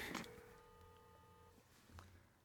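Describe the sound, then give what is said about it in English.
A phone dials a call, giving a faint, steady electronic tone that holds for over a second and then stops, with a little background noise around it. “Okay, I'm going to call it.”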